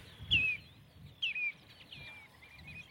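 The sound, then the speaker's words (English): Redshanks and a flock of starlings call overhead: two sharp, descending whistled notes ring out clearly early on, followed by fainter scattered chirps over a quiet background. “Red shanks and a flock of starlings going overhead.”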